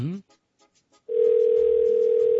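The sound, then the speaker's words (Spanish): A steady single-pitch telephone ringing tone on a mobile call holds unbroken and loud after a brief voice and a few faint sounds at the start. “Ahí está marcando.”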